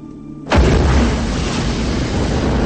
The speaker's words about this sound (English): A fireball explodes from the shield.